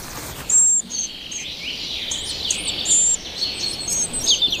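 Bird chicks call inside a cramped tree-hole nest with thin, high squeaky chirps. A few short bursts stand out above a steady hiss.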